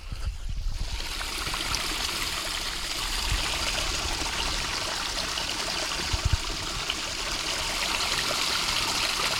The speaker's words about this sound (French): Je sais pas s'il est possible de percevoir derrière le roulis de l'eau un espèce de bruit de tube un peu plus électrique.